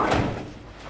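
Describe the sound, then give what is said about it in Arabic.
A door being shut: one dull, heavy thud at the start, followed by a short fading rumble. “سكر الباب.”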